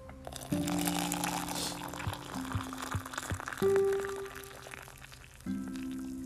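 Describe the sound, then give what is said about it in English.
A cup of Nescafé instant coffee being made in the morning, with faint crinkling, scraping and clinking handling sounds and a few soft knocks, and no talk. “This is what we wait for. Every single morning, our delicious, delectable cup of Nescafe.”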